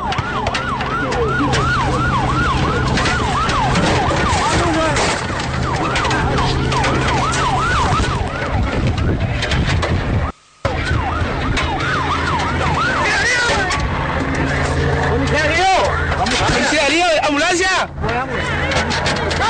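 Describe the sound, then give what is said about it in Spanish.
Ambulance siren wailing in repeated rising and falling sweeps, loud throughout, mixed with people shouting and vehicle noise, with a brief cut near the middle. “¡Ambulancia! ¡Ambulancia!”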